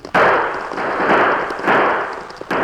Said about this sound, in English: He fired into the air